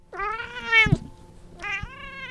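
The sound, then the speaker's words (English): Gray cat meowing, two clear meows: the first drawn out and bending in pitch before a brief thump, the second shorter, alone with no talk. “Hannah Jimmy held the gray cat, thought to be one of three in town”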